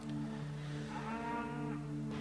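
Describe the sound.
A strange, unusual calf gives a drawn-out, low mooing call that holds steady through the whole stretch, fairly quiet and heard on its own.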